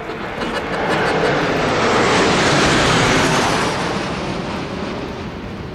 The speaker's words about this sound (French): Neuf Alpha Jet, un leader, un charognard. Deux intérieurs, deux extérieurs, deux solos, un remplaçant.